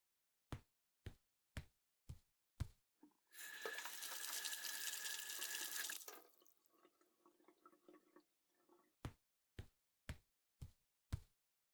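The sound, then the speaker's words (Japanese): Tap water runs for about three seconds while hands are washed. Five evenly spaced sharp taps come before it and five after. “あらかじめ手を清潔にしておく必要があるわね。手をきれいに洗ってきてくれる？”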